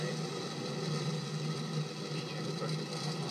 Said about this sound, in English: We've got launch. Go Falcon, go GPS. All right. Falcon 9 pulling up off the pad.